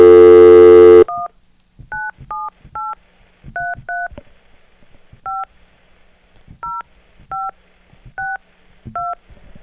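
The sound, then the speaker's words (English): Telephone keypad tones as a long-distance number is dialled. One loud tone opens, then eleven short dual-pitched beeps follow at uneven intervals over a faint background murmur. “why don't you dial up Coach Boyce, see if we can get a hold of him. We'll do this live. You got to do one, though. Did you dial one? No. Yeah, you got to dial one.”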